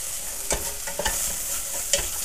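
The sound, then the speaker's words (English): Onions and garlic frying in a pan: a faint, steady sizzle with a few soft scraping stirs breaking through, and no voices. “Okay, these onions and garlic are nearly done.”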